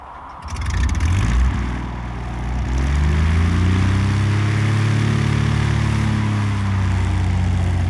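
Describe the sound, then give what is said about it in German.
An engine starts with an abrupt onset, then settles into a loud, low, steady rumble. Its tone rises as it revs up, and it holds a strong, continuous drone to the end. “Lassen Sie den Motor an”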